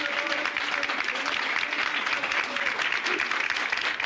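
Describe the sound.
Municipal workers applaud in protest at a city council hall in İzmir, a steady, dense clapping that holds evenly throughout at a moderate level.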